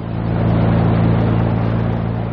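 A motorboat engine runs on a fishing boat, giving a loud, steady droning roar with a low buzzing hum that holds an even level throughout, with no voices.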